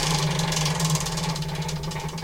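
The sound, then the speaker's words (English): A prize wheel spins in a quiz game, giving off a fast, steady stream of many small ratchet-like clicks over a continuous low hum. “So spin the wheel again”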